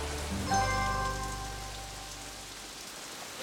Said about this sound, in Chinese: 下雨了，下雨了，下雨了。